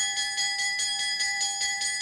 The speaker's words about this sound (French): La cloche a sonné